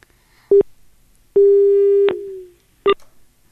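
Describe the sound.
Telephone tone after a call is cut off: three steady beeps at the same pitch, a short one, a longer one with a fading tail, then another short one, loud against silence.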